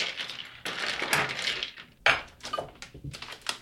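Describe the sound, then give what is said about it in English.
A spoon stirring a cocktail in a glass gives light clinks and scrapes, with a few sharper metallic taps standing out from a steady rattle. “And give it a nice little stir. We have a very pretty spoon that I'm going to use. Over here. A little stir.”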